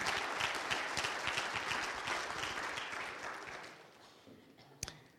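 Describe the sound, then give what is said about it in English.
An audience applauds at a talk. The dense clatter of many clapping hands is loud at first, then gradually thins and fades over the last seconds. “let's have about a big round of applause”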